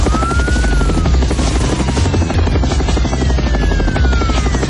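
A helicopter flies overhead with a loud, unbroken rotor roar and a thin turbine whine that drifts in pitch, steady and dense for the whole stretch.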